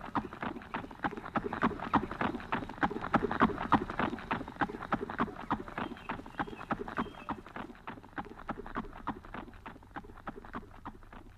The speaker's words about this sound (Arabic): طير يا حصان طيران.